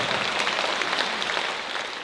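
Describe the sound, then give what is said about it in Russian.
Dense, steady applause from a concert audience after a combined orchestra's performance in Sevastopol. The sound is a continuous wash of many hands clapping that eases slightly toward the end. “Ваши бурные аплодисменты, Александра Семенова.”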